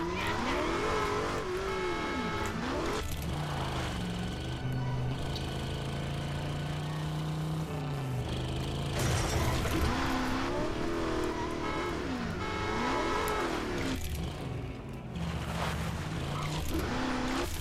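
A car engine revs in a racing video game as the car drives off onto a dirt road: a loud, steady engine drone whose pitch swings up and down repeatedly with the revs, running throughout without talk.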